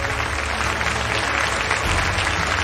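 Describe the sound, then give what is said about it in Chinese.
An audience applauds to welcome a guest's family onto a stage. The clapping is dense, loud and sustained, holding at a steady level throughout without a break. “我们掌声欢迎他们。”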